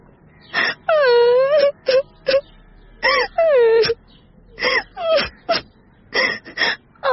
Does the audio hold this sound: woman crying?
yes